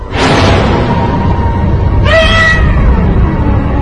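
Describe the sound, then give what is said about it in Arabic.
A small white cat meows twice inside a bathroom, with a long drawn-out cry at the start and a brighter, higher cry about two seconds later over a steady low background noise. “ابتديت ان انا اسمع في صوت، ده صوت قط.”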